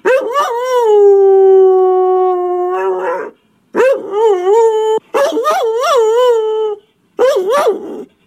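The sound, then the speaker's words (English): A beagle howls loudly, first one long, steady, drawn-out howl, then three shorter wavering howls with rising and falling pitch, separated by brief silences. “Could that be some kind of a beagle? Correct.”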